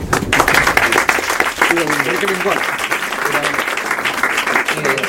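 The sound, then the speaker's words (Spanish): Audience applause fills a poetry book presentation in a bookshop: sustained, dense clapping runs loudly throughout, with voices calling out and talking over it. “don Daniel Mata para que rogue un aplauso fuerte.”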